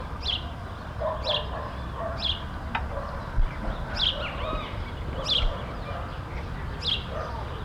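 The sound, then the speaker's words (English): Sparrow calls: six short, high chirps at uneven intervals over a faint background hum. “Sparrow.”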